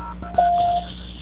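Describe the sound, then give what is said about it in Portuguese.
A single telephone keypad tone sounds while a call is being transferred, one steady beep lasting under half a second over faint line hiss. “Só um minuto, por favor, que eu vou transferir a ligação. Transferência.”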